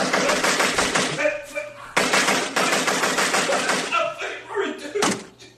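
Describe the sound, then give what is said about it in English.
Rapid gunfire in long, loud, dense bursts: one sustained volley, an abrupt restart, then a few scattered shots as the firing tapers off. “You like getting shot? Do you like getting shot? Do you want me to stop shooting you?”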